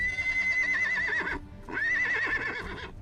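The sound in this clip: Horse neighing in two loud, high whinnies with a wavering, trilling pitch, the second following after a short break.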